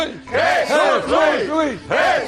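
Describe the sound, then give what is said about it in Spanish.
A crowd cheering, with massed voices giving repeated rising-and-falling shouts in a steady rhythm that fills the whole moment. “Gracias por estos aplausos y estos vítores que tanto me estimulan.”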